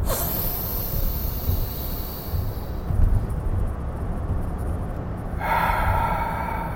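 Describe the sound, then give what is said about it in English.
Deep breathing, a continuous, loud rush of air through the mouth with no clear break between breaths and no talking. “3 deep breaths”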